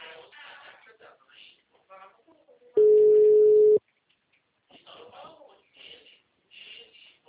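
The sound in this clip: Ringing tone of an outgoing telephone call, a single steady mid-pitched tone lasting about a second, with quiet voices talking before and after it.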